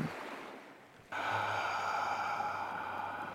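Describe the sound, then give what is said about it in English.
One long, deep breath drawn in during a guided relaxation exercise, heard as a steady airy rush of inhaled air lasting over two seconds after a brief quieter lead-in. “let's take one big deep breath again together. In”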